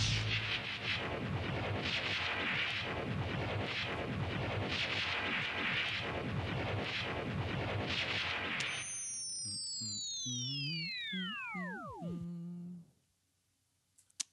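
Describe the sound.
A sci-fi proton pack weapon effect: a dense, pulsing crackle of firing noise gives way to an electronic whine that sweeps steeply downward in pitch over about four seconds as the pack powers down, ending in near silence.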